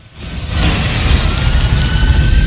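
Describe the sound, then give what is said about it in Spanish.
Film effect of a dragon breathing fire in a cave, its flames melting icicles: a loud, dense, rumbling rush swells in within half a second and carries on steadily, with faint high whistling tones above it. “La bestia lanza fuego y derrite los carámbanos.”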